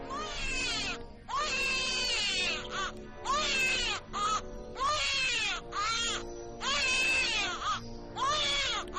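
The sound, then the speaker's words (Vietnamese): A newborn baby crying in many repeated wailing bursts with short gaps between them, each cry thin and high-pitched, with no talk over it. “Bỗng nhiên, có một tiếng trẻ sơ sinh khóc lên nỉ non. Cái tiếng trẻ sơ sinh khóc lên mà nghe đến rùng mình, phát ra từ miệng đứa bé Lưu Tứ đang ôm.”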